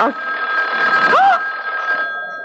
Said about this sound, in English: It's the phone.